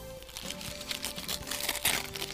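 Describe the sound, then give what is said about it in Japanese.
Brown paper wrapping being opened from around a souvenir treat, with continuous crinkling and rustling and scattered crisp crackles at a fairly steady level. “あの包み紙に包まれてまして、茶色の包み紙なんですけれども、ちょっと開けてみたいと思います。”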